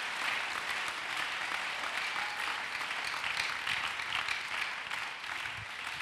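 An audience applauds to acclaim the Lord during a church service, dense continuous clapping that stays fairly faint and even from start to finish.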